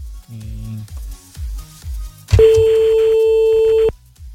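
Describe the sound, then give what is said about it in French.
An unanswered phone line gives one steady ringback tone for about a second and a half, after brief talking. “Bon, on appelle un autre, là, ça décroche pas, c'est pas grave.”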